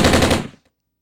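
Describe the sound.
Rifle gunfire sound effect: a fast, loud burst of rapid shots that cuts off after about half a second, leaving silence.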